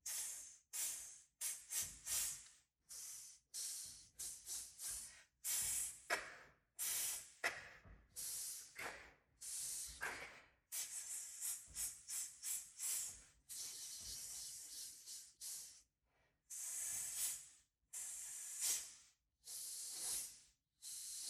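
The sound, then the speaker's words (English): Rhythmic breathing pattern for listeners to echo: many sharp, hissing breaths, some short and some drawn out, set in a deliberate rhythm with brief gaps between them and no talk over them. “with your breath, would you be my echo? It means I'll go first with a rhythm pattern, and then you'll repeat it after me. The first thing sounds like this.”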